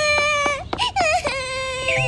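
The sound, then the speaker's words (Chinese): A child cries in high, tremulous sobs and whimpers, the bursts broken by short catches of breath, with no other sound. “你怎么哭了？没有就没有，哭什么嘛？”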